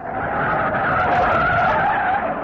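A car's tires skid as it brakes to a stop, giving one loud, sustained high-pitched squeal over a rough scraping hiss that holds steady for the whole stretch with no voices.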